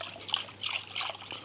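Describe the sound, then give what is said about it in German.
Milk pouring onto whisked eggs for pancake batter makes a soft, continuous trickle with light splashing, faint and steady throughout. “wir haben hier die Eier, die verquirlen wir gut, gießen das Ganze mit Milch auf.”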